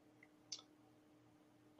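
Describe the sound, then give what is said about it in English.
A single faint mouse click as a screen-share button is pressed, short and crisp in near silence, before a voice begins at the end. “Actually, can I share my screen very briefly? Yes. Let me just click the button to do that.”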